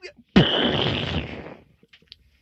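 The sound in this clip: One explosion of a survey vessel in a video game: a sudden loud blast that holds as a rough roar for over a second before fading away, followed by a few faint clicks.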